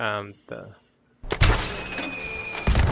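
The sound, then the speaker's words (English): Nuke launcher explosion from the video game Fallout 4: a sudden loud blast that rumbles on with crackling debris and surges again near the end, following a few words of speech. “The nuclear takes using the nuke launcher from Fallout 4.”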